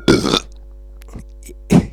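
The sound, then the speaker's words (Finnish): Two short, rough burps, the second briefer, separated by a stretch of near-silence, with a low steady electrical hum underneath throughout. “Mä yritin siellä Ruotsissa opetella sanon niinku röyhtäisemmällä nei.”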